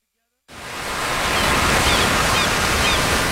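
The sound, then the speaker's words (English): Ocean surf along the California coastline rises from a short silence into a broad, steady rushing roar that holds at full strength. “Every day in California, more than 11,000 surfers paddle out across our 840 miles of pristine coastline.”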